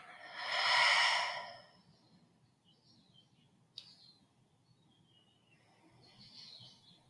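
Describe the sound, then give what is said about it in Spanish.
A deep breath exhaled through the mouth during a guided relaxation exercise, a soft airy whoosh lasting about a second, then near-silence with faint bird chirps. “Inhala por la nariz muy profundo. Exhala y suelta por la boca.”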